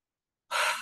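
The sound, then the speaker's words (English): A single deep breath, drawn in and released, makes a short, soft rush of breathy air that swells quickly and then fades, heard alone without talk. “So take a big deep breath into the body”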